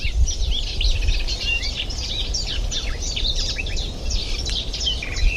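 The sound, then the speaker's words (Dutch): Cetti's warbler singing loudly and very close: bright, explosive bursts of song that fill the upper range, with other birdsong overlapping throughout and a steady low rumble underneath. “Snoeiharde setisanger. Ja, echt heel hard. Hij zit ook echt super dichtbij.”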